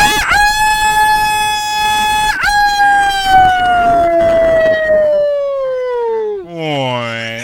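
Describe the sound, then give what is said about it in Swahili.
A rooster crowing: one long, loud, drawn-out call rich in harmonics that slides steadily lower in pitch over several seconds and ends in a short warbling tail. “hebu wika kwanza hebu wika. Wika mara ya pili, wika kidogo, wika Bambwe.”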